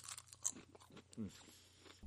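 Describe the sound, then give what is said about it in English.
Faint crunching as fried wontons dipped in duck sauce are bitten and chewed, a few soft crisp cracks and munches scattered across the moment, quiet and without talk. “one of the first things that got me into Chinese food, besides chicken fingers, was fried wontons in duck sauce. So as I eat this,”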